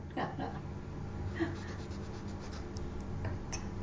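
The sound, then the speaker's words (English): Hands peel a hard-to-peel, juicy orange, making a steady stream of soft rubbing and tearing scrapes. The sound is low and continuous, with no clear separate events. “I am struggling with this orange and getting juice all over my hand.”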